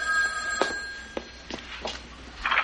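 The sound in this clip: A telephone rings faintly, with a few short ring bursts over a steady low background hum and a thin sustained tone.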